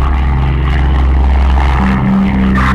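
A propeller aircraft drones steadily in flight after takeoff. The loud, continuous engine hum has strong low tones, and its pitch steps up slightly partway through.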